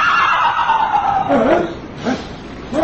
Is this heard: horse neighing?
yes

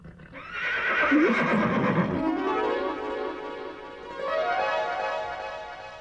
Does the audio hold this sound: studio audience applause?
no

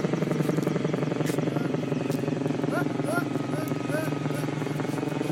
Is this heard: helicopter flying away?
yes

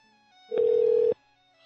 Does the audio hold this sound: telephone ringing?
yes

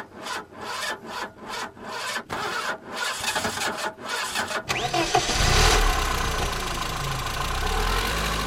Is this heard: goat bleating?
no

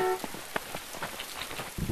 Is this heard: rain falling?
yes

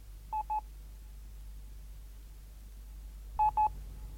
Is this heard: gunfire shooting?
no

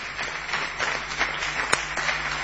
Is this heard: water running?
no

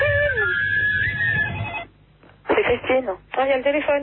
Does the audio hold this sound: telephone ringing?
yes

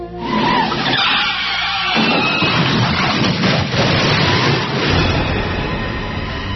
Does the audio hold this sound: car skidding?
yes

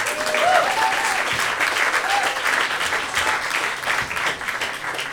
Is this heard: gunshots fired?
no

